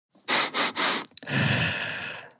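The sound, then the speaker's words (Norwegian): A calming breathing exercise: three quick, sharp sniffing breaths in through the nose come in even succession, followed by one long, steady exhale through the mouth that slowly fades. The breaths are loud and clear, with no talk. “at du kan trekke pusten tre ganger inn gjennom nesa litt sånn kjapt og så ut gjennom munnen. Jeg lurer på hvordan det her høres ut på lufta for deg nå, men la oss gjøre det sammen, da.”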